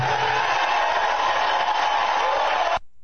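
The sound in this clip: Crowd cheering and applauding at the close of a political speech, a dense sustained roar at a steady level that cuts off abruptly just before the end.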